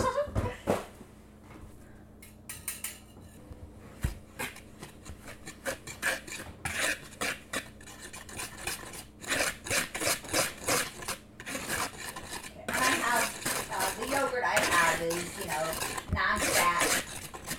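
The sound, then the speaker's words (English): A whisk scrapes briskly against a bowl while stirring dry baking ingredients together, a quiet raspy rhythm of many irregular strokes that grows busier and louder toward the end. “I'm going to whisk all the dry together, and then I think we just dump the wet in, and then put it in a pan.”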